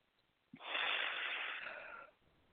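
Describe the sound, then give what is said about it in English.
A person takes one long, airy breath of about a second and a half. It starts with a soft catch, carries a slight wheezy edge and fades away, with no talk. “Now take a breath and see how you feel.”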